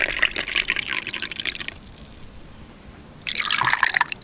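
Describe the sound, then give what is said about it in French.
Meat broth being poured gives a splashing liquid rush in two bursts, with a quieter pause between them. “C'est le bruit du bouillon.”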